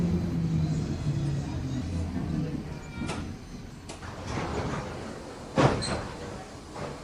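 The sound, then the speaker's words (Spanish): Commuter train doors opening at a station on the crowded tourist line from Naples to Herculaneum: a steady low rumble broken by a few sharp knocks and clunks, with the loudest one near the end. “se abren las puertas y los turistas se apean de los vagones”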